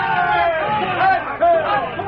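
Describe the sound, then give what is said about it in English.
A crowd gives a long, sustained shout of triumph. Many overlapping voices form a continuous, raised roar that surges briefly louder near the end. “The crowd, sensing victory, gave a long, sustained shout of triumph.”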